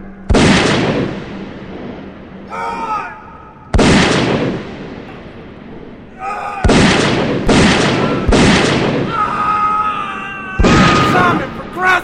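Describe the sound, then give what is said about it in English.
Gunshots in a tense dramatic scene: six loud, sharp blasts at irregular intervals, each with a long rumbling decay, while frightened voices shout and cry out between the shots. “He's shooting Phipps, Simon!”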